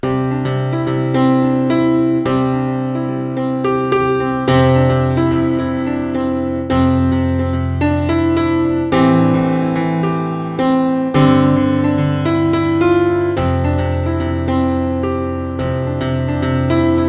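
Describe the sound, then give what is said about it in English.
A solo piano plays a song, with full sustained chords that change every couple of seconds and a melody ringing above them. The playing is loud and steady, and no voices are heard. “So here's an example of what a piano player would do if they got the rehearsal, I was going to say CD, but the rehearsal MP3 or whatever it is that you're using these days.”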